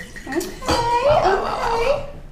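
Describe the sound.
Dark red wine pours out with a gurgling, bubbling liquid sound, rippling and moderately loud for most of its length.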